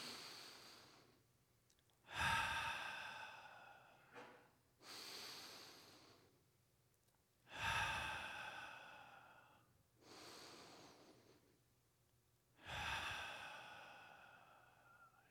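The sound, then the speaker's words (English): Slow, deep breathing done together: a soft, unhurried cycle of several audible breaths, stronger airy breaths alternating with lighter ones at a calm, even pace, with no talking. “Spirit is breath. So let's just breathe together.”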